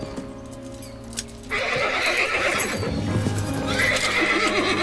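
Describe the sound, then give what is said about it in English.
A horse rears with a rider on its back, its whinny and snorting breath rising over a steady noisy bed with hoof sounds, growing louder after a quieter opening second and staying strong to the end. “the horse rears with Tyler”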